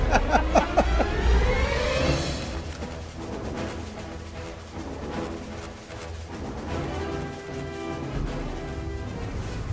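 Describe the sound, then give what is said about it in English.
Turbines of a jetpack fire up with a rising, pitched whine over the first two seconds, then give way to a steady, roaring rush of thrust that continues loudly to the end. “Well, Jim, I gotta tell you, that was a very interesting ride on the jetpack.”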